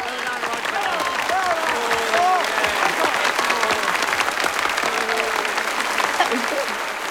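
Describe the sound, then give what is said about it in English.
Applause after a concert: dense, steady clapping from an audience that holds at an even loudness for the whole stretch without pausing or fading. “Woodward finishes his concert and punches the air. Sitting beside Gillian, David applauds passionately.”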